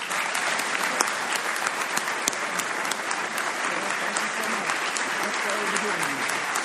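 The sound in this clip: An audience at the National Press Club gives a warm round of applause welcoming Dr. Ben Carson, dense and steady clapping that carries on at a constant level throughout.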